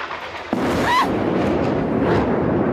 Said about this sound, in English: This is a missile attack